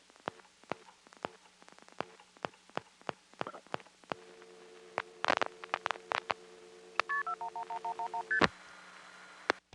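Touch-tone DTMF dialing on a telephone line as a long-distance number is keyed in: a scatter of sharp clicks and pops, then a rapid run of short, evenly spaced tone beeps ending in a longer tone, over a steady faint line hum.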